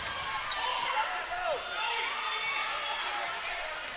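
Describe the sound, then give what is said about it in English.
A basketball is dribbled up the court during a women's game between Alma and Mountain Home. Quick bounces sound among sneaker squeaks and a constant crowd murmur. “She's dribbling up to the top”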